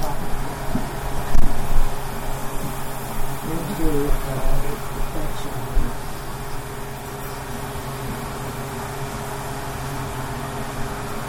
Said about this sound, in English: Put the fan back on again. Might want to open that window up, honey, too. Because it's all smoky.